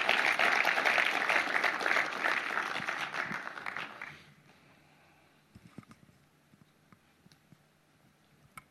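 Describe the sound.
Audience applause welcoming a speaker: dense, steady clapping holds loud for about four seconds, then stops abruptly, leaving only faint scattered clicks and small noises.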